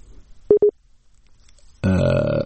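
A disconnected telephone line tone as a caller's call drops: two short, steady low-pitched beeps in quick succession, clear against a quiet background.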